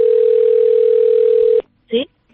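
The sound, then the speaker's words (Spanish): Telephone dial tone heard while calling a neighbour: a loud, steady single-pitch hum holds for about one and a half seconds, then cuts off abruptly into near silence. “he decidido yo también, en vez de mandar un WhatsApp, llamar a mis vecinas”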